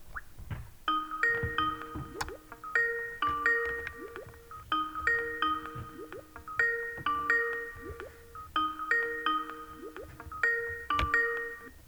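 Phone ringing out on an unanswered call: a bright, repeating melodic ring cycle, each cycle about two seconds long, comes back many times at a steady, moderate level with no voices.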